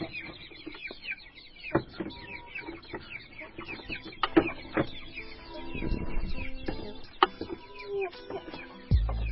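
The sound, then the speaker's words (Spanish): Chickens raised by households cluck and call in a scatter of short, moderate notes that recur throughout. A few louder, sharper calls stand out. “Pero si se trata de una fuente proteica que casi todos crían, es esta, los pollos.”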